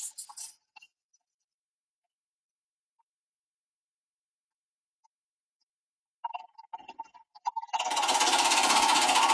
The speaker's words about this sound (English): we're going to draw from that digital basket here this morning, and we'll do that by spinning our digital wheel